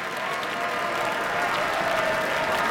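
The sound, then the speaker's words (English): An audience applauds after a violin encore, an arrangement of Schumann's Dreaming from Scenes from Childhood that followed Mozart's Fifth Violin Concerto. The clapping is a dense, even wash that swells slightly toward the end. “before they couldn't help and applaud at the end of Dreaming from Scenes from Childhood by Robert Schumann”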